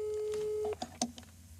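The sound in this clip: A steady single-pitched ringing tone of an outgoing telephone call holds for under a second, then cuts off, followed by a few short, faint blips.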